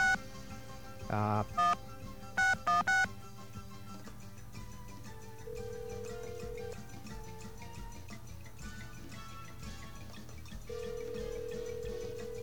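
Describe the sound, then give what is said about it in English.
Touch-tone telephone dialing 9 then 976: a quick series of short, loud beeping key tones, then a low hum with two longer steady tones later on. “Okay, we get our dial tone here. There it is. And we have to dial out, so we'll dial a 9 to get out. And then 976.”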